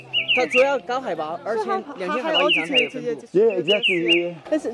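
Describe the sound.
High-pitched bird calls from a high-altitude area, each a quick, descending whistle-like note. They repeat a few times over continuous talk.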